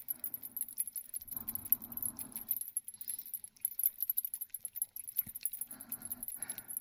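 Small bell jingling in a few short, bright bursts of tinkling, with quieter gaps between them and no voice heard.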